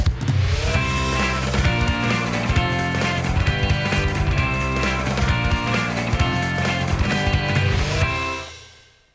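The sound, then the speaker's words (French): Radio show jingle for an aviation program: a loud, dense burst of music with a steady driving beat that plays for about eight seconds and then fades out. “Donc, jingle, et on se retrouve après pour vos dernières questions du jour.”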